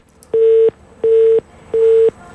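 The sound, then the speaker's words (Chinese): Telephone busy tone: three identical steady mid-pitched beeps, each about a third of a second, repeating in an even rhythm with short gaps of silence, loud and alone. “还有一个廉政举报的电话，这是盲音吧？”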